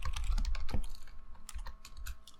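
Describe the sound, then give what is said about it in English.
Typing on a computer keyboard to search online: a quick, irregular clatter of many light keystrokes, fairly faint and with no talk. “Let me Google.”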